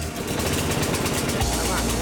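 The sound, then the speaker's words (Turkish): A lawn mower engine runs during a test drive, a loud, dense, steady rumble with rattling vibration that holds at an even level throughout without pauses. “Bir çim biçme makinesine bakmaya geldim ama çalıştırmayı bile bilmiyorum. Motor çalıştıktan sonra test sürüşü başlıyor.”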